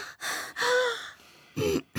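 Deep breaths drawn in and let out, loud, airy rushes of breath following one another in a few bursts with brief gaps between.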